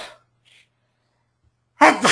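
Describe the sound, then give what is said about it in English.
A single loud, sharp sneeze bursts out near the end after a long stretch of near silence, with only faint noise before it. “Here's one from Leanne, and I have a feeling I'm going to sneeze.”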